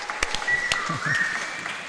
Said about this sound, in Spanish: Que els donem un aplaudiment a la Marta. Vinga, un aplaudiment ben fort.